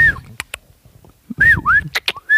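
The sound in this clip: A person whistles to imitate a fox. Several loud, swooping whistles rise and fall, broken by a few sharp mouth clicks, with brief breathy noises between them.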